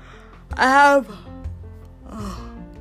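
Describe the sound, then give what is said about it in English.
A tired person yawns, a strong voiced breath lasting about half a second that swells and fades, followed by a softer, shorter vocal sound near the end. “See, that's me tired, guys. You hear that yawning.”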